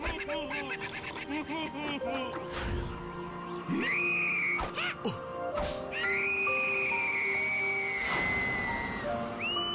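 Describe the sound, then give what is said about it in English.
A girl whistling in long, high, sustained tones that sound twice amid busy cartoon noises of quacking and honking birds. “She whistles”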